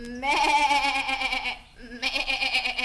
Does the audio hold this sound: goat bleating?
yes